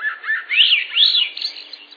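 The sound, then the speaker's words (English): Swainson's thrush song: a brief phrase of clear, flutelike whistled notes in looping arcs that climb higher toward the end, sung alone with no voices. “You can find more about the migratory divide of the Swainson's thrush”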